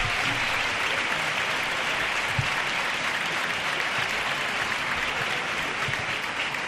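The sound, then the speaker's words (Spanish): A theatre audience at a premiere applauds: a dense, even wash of clapping that stays loud and steady from start to finish, with no pauses. “Ahora el público que los anima.”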